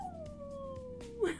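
A single wolf howl from a wolf-themed skin in a video game glides steadily downward in pitch, fairly faint, and closes with a brief brighter burst.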